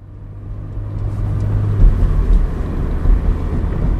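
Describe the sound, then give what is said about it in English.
A car drives along a road through green, hilly parkland, heard as a steady low engine and road rumble that swells slightly now and then, with no voices. “I'm driving through the lush green hills of Tilden Park in Berkeley”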